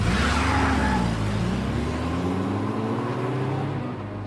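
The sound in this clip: A car drives off, its engine giving a loud, continuous droning rumble with a wavering tone that eases slightly toward the end.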